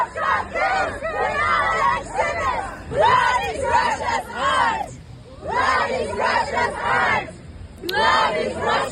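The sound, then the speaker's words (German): Femen and Pussy Riot activists chant as a crowd in protest at the Venice Biennale, in front of the Russian pavilion. Loud shouted phrases come in repeated rhythmic bursts separated by brief pauses. “Es gab Proteste zum Beispiel von den Aktivistinnen von Femen und Pussy Riot. So klang das hier.”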